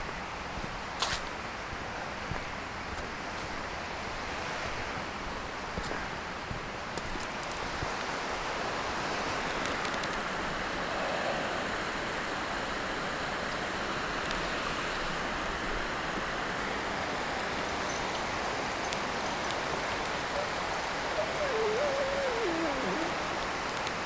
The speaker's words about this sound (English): Some tiny waterfalls down there.